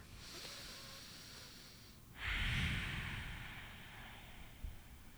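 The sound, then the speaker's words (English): A single deep breath: a sudden, loud, airy rush that swells and then slowly fades over a couple of seconds, with faint steady hiss before and after it. “So, taking a deep breath with us.”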